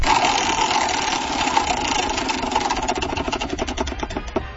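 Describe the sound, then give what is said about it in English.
A prize wheel spins in a sports-betting game segment, its rapid clicking gradually spacing out and slowing toward the end, over a steady humming drone. “Jonas Knox gets to spin the wheel. Spin it, Jonas!”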